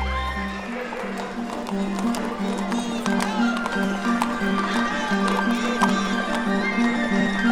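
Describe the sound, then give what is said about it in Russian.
A horse is ridden away, its hooves clip-clopping in many quick, sharp beats at an even pace over a steady low background hum. “Смотрите, он садится на лошадь и уезжает куда-то.”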